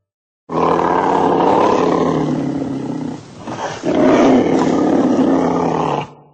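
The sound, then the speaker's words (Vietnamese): A white tiger roars twice, long and loud. The rumbling roars are separated by a brief dip in loudness and heard alone, without voices. “Một con bạch hổ ở đầu phóng tới và gầm lên, làm mọi người kinh hãi lùi lại.”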